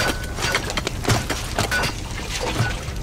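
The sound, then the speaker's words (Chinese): Ice being chopped open to make a fishing hole, heard as a few heavy, dull blows with brief crackling breaks over a steady rough noise. “凿一个窟窿就够了。看你这身子骨， 哎，砸那么大够了。”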